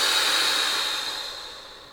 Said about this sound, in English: Take a big, deep breath, big inhale through your nose, and exhale through your mouth,